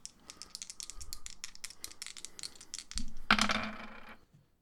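Dice rattle and roll for an attack roll in a tabletop role-playing game: a long flurry of quick, light clicks, then a louder clattering burst that stops abruptly near the end.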